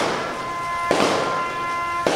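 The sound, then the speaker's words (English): Two sharp gunfire reports from a rifle salute ring out at a 9/11 memorial ceremony at Milwaukee's War Memorial Center on a rainy Monday morning, each crack standing out over a steady held tone. “a rifle salute rang out on a rainy Monday morning at Milwaukee's War Memorial Center”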